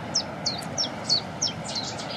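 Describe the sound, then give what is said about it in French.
A Cetti's warbler sings outdoors: a run of about seven short, sharp, high chirps comes at an even, quick pace over a low, steady background rumble. “Puis la bouscarde qui chante derrière nous, en plus. Ça, c'est sympa. Ça, c'est un des oiseaux les plus faciles à reconnaître au niveau chant. C'est deux notes.”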